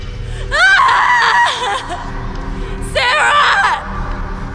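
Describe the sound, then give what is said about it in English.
A woman screams in terror, two loud high-pitched cries in a dark horror scene, the first long with wavering, falling pitch, the second shorter, over a low steady hum. “Hope kicked in, and Allison jumped to her feet and began to scream.”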